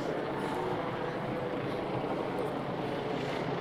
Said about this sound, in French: Donc l'hélicoptère fait du surplace au-dessus.